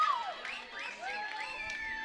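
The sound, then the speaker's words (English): Home crowd cheering at a college baseball game, with TLU Bulldogs fans against Emory after a go-ahead hit: sustained crowd noise with high wavering shouts and whoops rising and falling over it. “And the TLU crowd going nuts here. They heavily outnumber Emory fans, as you would expect.”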